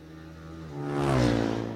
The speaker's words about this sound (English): Yet a couple of bikes have been spotted.